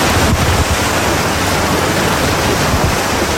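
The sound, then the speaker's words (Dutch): Small waves lapping gently against a dike outside a beach pavilion, heard as a steady, even rushing wash with no distinct separate splashes, continuous throughout. “Terwijl we buiten zachtjes de golfjes tegen de dijk aan horen klotsen”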